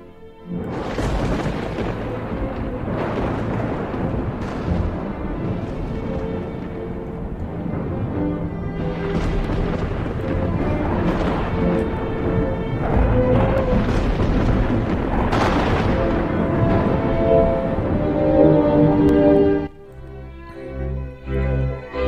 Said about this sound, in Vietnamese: bỗng nhiên nổ sấm khan. Tiếng sấm nghe đinh tai nhức óc, như là oán hận cái gì.